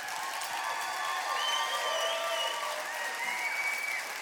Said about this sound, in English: Would you guys give Duncan Robinson a hand really quick?